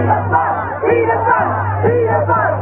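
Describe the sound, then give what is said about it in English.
Protesters chant together outside Buckingham Palace, a loud mass of raised voices in rhythmic unison over a steady low hum. “With crowds of people protesting outside of Buckingham Palace chanting pedophiles,”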